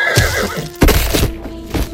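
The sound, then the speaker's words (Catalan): A startled horse neighs in a wavering, high whinny, then a few heavy thuds and knocks break in loudly over the same stretch. “El cavall s'espanta i li clava una cosa que el deixa desnocat allà mateix.”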